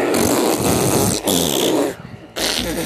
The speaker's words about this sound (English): At least 10 seconds. Of fart sound. A fart sound. So, here we go.